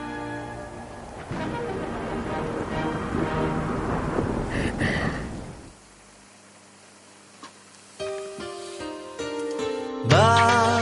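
Thunderstorm: a sustained, rolling rumble with a hissing, rain-like wash that lasts several seconds before dying away to near silence.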